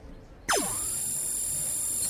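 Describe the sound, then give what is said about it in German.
Electronic scanner sound as a doll is scanned: a sudden sharp zap that sweeps downward in pitch, then a steady high, bright hum that holds to the end, with no talk. “Die erste Puppe wird nun gescannt.”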